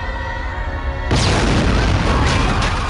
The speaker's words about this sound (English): Lestat and Marius are thrown back by an explosion erupting out of the centre of the stage.